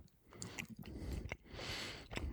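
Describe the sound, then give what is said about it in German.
Wet smacking and chewing of someone eating a sweet, caramel-tasting dessert. Faint mouth noises are broken by several sharp, clicky smacks at uneven intervals. “Ich hoffe, dass du auch vor allem den Schmatzen rausbekommst.”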